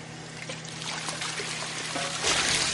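Clear liquid poured into a mixer in a drug lab, a continuous trickling, splashing pour over a low steady hum, growing slightly louder toward the end.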